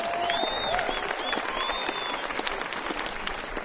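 Applause from a festival audience after dancing to a live set, steady crackling clapping held at a modest level for several seconds.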